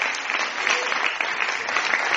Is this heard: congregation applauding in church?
yes